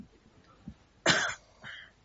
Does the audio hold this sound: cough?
yes